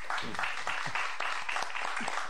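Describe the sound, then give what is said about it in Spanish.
Applause from a crowd in a river delta on a Saturday morning: steady, dense clapping that holds at a fairly faint, even level throughout. “Un aplauso”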